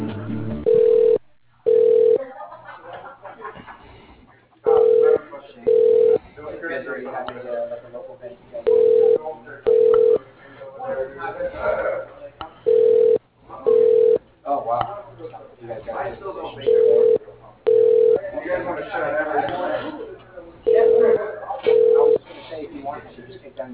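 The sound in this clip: Telephone ringback tone while a call is being transferred: six evenly spaced double rings, each pair a steady mid-pitched electronic tone, returning about every four seconds over continuous background sound.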